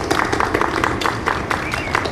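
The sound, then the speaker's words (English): Audience applause at an outdoor rally: a dense patter of clapping from a crowd, steady and fairly loud, with some irregular brighter bursts and a faint voice mixed in. “Can you give yourselves a round of applause?”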